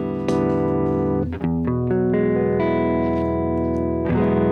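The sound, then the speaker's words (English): Electric guitar, apparently a Stratocaster, played through a Fender Deluxe Reverb amp with an overdrive pedal giving a mildly dirty, still fairly clean Marshall-type tone; a few strummed chords ring out and sustain with a slight edge of grit. “Now, if I turn on my first pedal, which is kind of putting it in more of a Marshall type sonic zone,”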